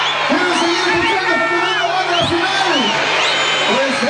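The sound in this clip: An audience at the close of a live show shouts and cheers as one, with many voices calling out in rising and falling cries, loud and steady throughout.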